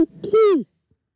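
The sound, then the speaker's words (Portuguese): A person's voice imitating an owl's hoot: one short voiced call that bends downward in pitch and cuts off abruptly, then silence. “Faz você a coruja da mascote, então. Vai, faz você.”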